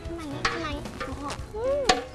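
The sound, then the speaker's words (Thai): Squeaky scraping comes from stirring a pandan-scented dessert mixture with tapioca starch, with a few sharp clicks and thin, wavering squeals across about two seconds. “หนูกวนนะคะ”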